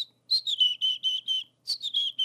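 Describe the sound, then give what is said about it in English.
A person whistles an imitation of a chickadee song: two quick phrases of short, high, clear notes separated by a brief pause. “I will go out and I'll whistle the chickadee song. It's basically close to what they do.”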